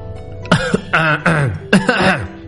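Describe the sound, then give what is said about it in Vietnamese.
Violent dry coughing, a few harsh, throaty, voiced coughs in quick succession, loud and with nothing else heard around them. “Lâm Phàm kịch liệt ho khan”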